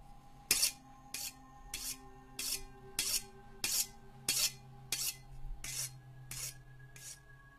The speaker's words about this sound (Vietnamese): Rồi tiếp theo, âm thanh mài dao lạnh lẽo từ ngoài giếng truyền vào.